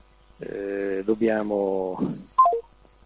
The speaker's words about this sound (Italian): Ora vediamo se riusciamo a telefonare.